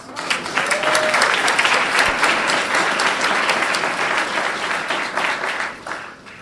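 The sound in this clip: Audience applause at a gathering: dense, continuous clapping from many hands that holds at a fairly even level for about six seconds before easing off, heard alone without talk.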